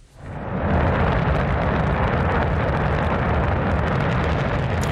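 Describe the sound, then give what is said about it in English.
Roar of China's Shenzhou 23 rocket blasting off at the Jingquan Launch Center: a loud, dense rumble swells within the first second, then holds steady and unbroken to the end, with no voices. “The sound of China's Shenzhou 23 rocket blasting off on Sunday from the Jingquan Launch Center in Inner”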